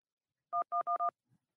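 Telephone keypad tones: four short, even two-tone beeps follow in quick succession, then a faint brief blip, with nothing else around them.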